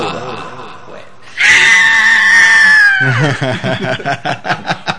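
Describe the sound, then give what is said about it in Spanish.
A recorded scream: a loud, high-pitched shriek held for about a second and a half, its pitch slowly falling, followed by a run of quick rhythmic vocal bursts. “ese grito fue grabado, no fui yo.”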